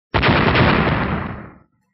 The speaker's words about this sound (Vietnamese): Một tiếng nổ thật lớn vang lên, từ trong trung tâm quang trận tràn ra một cổ hắc phong.